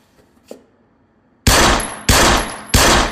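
Gunshots fired at a target with a borrowed gun: after a quiet stretch with a faint thud, three loud, abrupt blasts follow at an even pace, each ringing briefly before the next.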